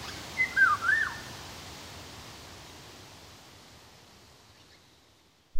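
Golden oriole song: a short phrase of clear, fluty whistled notes near the start, then fading hiss with no further calls.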